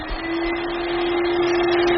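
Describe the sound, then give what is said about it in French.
Steam cleaner with suction cleaning a car's fabric interior, giving a steady, fairly loud rushing hiss over a constant low hum, unbroken for the whole stretch with no talk. “C'est de la vapeur, tout simplement, de la simple vapeur. Le fait de dissoudre ces impuretés avec la vapeur et l'aspirer en même temps”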